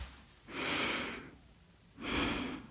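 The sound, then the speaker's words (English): A deep, slow breath is taken, heard as two long, soft, airy rushes of breathing separated by a quiet pause. “please close your eyes and take a deep breath”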